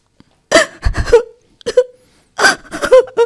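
A woman cries and wails alone, with several broken, breathy sobs and quavering voiced moans coming in uneven bursts with short pauses between them.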